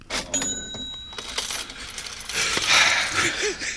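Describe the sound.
Coins clink and a cash register rattles and rings in a short sequence of bright metallic jingles and clatters.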